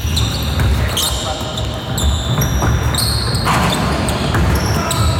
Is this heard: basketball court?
yes